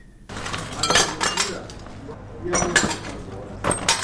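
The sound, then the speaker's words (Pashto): Broken window-glass shards clink and scrape as they are gathered up in a room of a house in Kabul's Khair Khana damaged by a rocket. Repeated bursts of bright glassy chinks rise and pause unevenly. “د کوټې وې ګوهې ته د ماتو ښیښو ټوټې راټولوي.”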